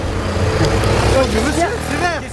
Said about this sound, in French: regarde-moi toutes ces bagnoles qui passent au rouge là